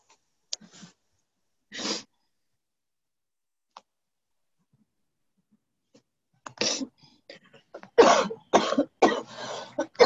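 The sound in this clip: Coughing and throat clearing on an online community call: two isolated coughs, then a pause and a cluster of harsher coughs and throat-clearing bursts toward the end, with no talk.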